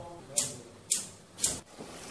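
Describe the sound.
Gas stove igniter clicking in a kitchen as the burner is lit: three sharp, bright ticks at an even pace, then a fainter fourth.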